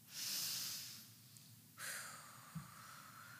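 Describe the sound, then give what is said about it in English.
Faint collective breathing from worshippers at a religious service asked to take a deep breath: a soft airy rush that swells and fades, then a second longer breathy hiss with a small thump near the end. “Take a breath for me.”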